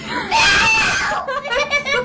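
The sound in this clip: A woman screaming: one loud, sustained high-pitched shriek, then a run of shorter, broken wailing cries.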